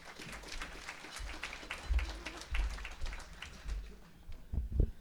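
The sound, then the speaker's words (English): An audience applauds to welcome a minister to the stage with a dense, uneven patter of clapping that swells and dips throughout, with some low thumps mixed in. “Big hand for the Honourable Minister Shannon Phillips.”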